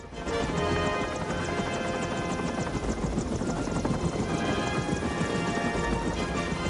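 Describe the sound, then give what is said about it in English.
Heavy rotor noise from two helicopters flying over an army base and following a dirt track across a meadow, a loud, dense, continuous throbbing roar that holds steady for the whole stretch. “Two choppers fly over the army base and follow a dirt track”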